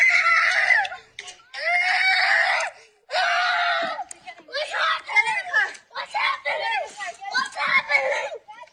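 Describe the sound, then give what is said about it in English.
A six-year-old child screams while fleeing gunfire at a Fourth of July parade in Highland Park. Three long, shrill, sustained screams are followed by a run of shorter, frantic, breathless cries. “This is what it sounds when a child runs from an assault weapon.”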